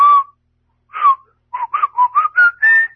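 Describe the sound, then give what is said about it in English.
Whistling of a Mozart melody by one person, a clear, bright line of several short notes. A brief opening note and a pause lead into a quick run of notes whose pitch climbs toward the end. “self-deprecating whistling. That's me. That's Mozart.”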